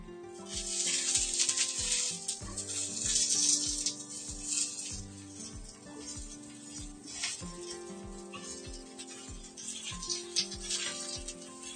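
Eggplant fries in a frying pan with a soft, continuous sizzle and hiss dotted with faint crackles, holding steady throughout without fading away.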